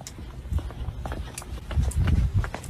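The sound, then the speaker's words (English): Footsteps of several people running fast, a rapid, uneven patter of many thudding steps that grows somewhat louder toward the end. “Oh, hey, why are we running? Hey, why are we going so fast?”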